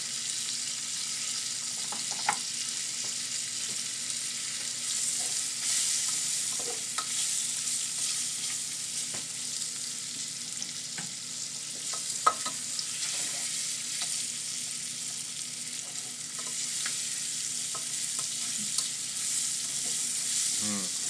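Chili and ginger frying in a pan give a soft, steady sizzling hiss, with occasional light clicks and scrapes of stirring scattered through.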